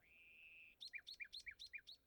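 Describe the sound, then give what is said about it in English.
Songbird singing in spring, soft and clear: one long, even whistled note, then a run of quick repeated phrases, each a high chirp dropping to a lower one. “So good, so peaceful. The birds are singing. The trees are in full bud.”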